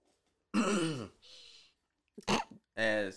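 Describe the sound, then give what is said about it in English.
Someone clears their throat in a few rough, voiced bursts with short breathy gaps between them. The sound is fairly loud, and no clear words are spoken. “I'm sorry, why did you clear your throat like that?”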